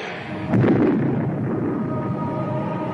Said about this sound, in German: In ihren Händen hält sie einen übergroßen Hammer, den sie gegen den Bildschirm schleudert. Er explodiert.